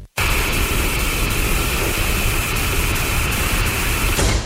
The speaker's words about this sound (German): Rauschen klingt so wunderbar. Im Sommer am Meer, aber nicht im Radio.